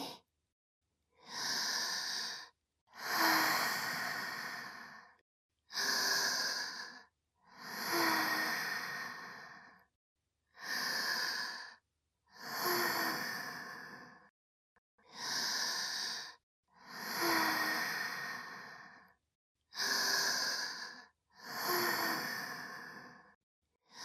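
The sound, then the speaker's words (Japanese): Deep, slow breathing alone, about ten breaths in five in-and-out pairs. Each shorter airy inhale is followed by a longer, fuller sighing exhale, with steady short pauses between them. “目をつぶって大きく息を吸って、吐いて、吸って、吐いて”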